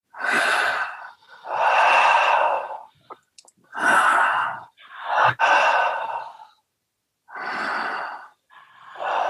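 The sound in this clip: Deep breaths in and out through an open mouth with the jaw dropped, taken in continuous rounds without pausing. Several loud, breathy rushes of air follow one another, separated by short quiet gaps.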